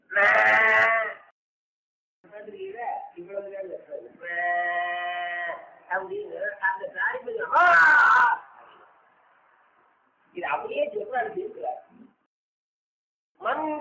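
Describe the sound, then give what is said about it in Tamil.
A calf bleats for its mother cow, giving a few loud, drawn-out calls with talking in between. “கண்ணு கத்து வச்சுனா கண்ணுக்கு கத்துச்சுன்னா தாய்ப்பசு என்ன ஆகுது? இது இன்னும் கொஞ்சம் சவுண்டு கூட விட்டுக்கணும். எது மாதிரி கண்ணு குட்டி கொஞ்சமா தானே கத்து”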